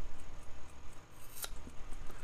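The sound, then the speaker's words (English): Very sharp scissors make a straight cut, giving one crisp, bright snip against a faint, steady background with no talk. “So I'm going to try to cut it absolutely straight with my very sharp scissors.”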